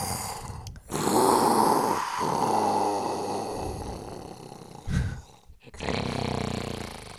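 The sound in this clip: A man's voice imitates a man snoring in deep sleep: several long, rasping, growling snores, loud and rough, separated by short pauses.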